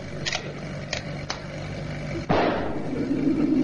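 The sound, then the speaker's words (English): A gunshot aimed at a balloon from a van lands as one sudden sharp crack after a few faint ticks, then a lingering rough rumble. “They're shooting at us. They're shooting at us”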